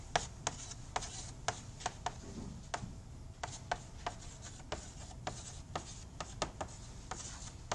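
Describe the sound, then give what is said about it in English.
Handwriting an equation: many short, sharp taps and scratches of the writing tool in an uneven rhythm, faint and alone. “I can write this equation”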